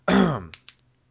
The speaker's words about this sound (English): You'll have to excuse me. I have something in my throat.